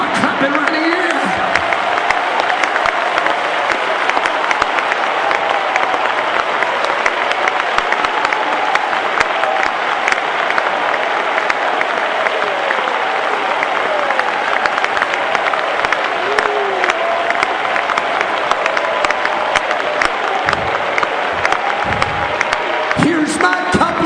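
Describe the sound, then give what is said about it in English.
Congregation clapping and cheering during a church service, a long, loud, sustained roar of hands and shouts with a preacher's voice talking over it and flaring up near the end. “Come on, look at your neighbor and say, I'm about to clap like I'm going to give it all.”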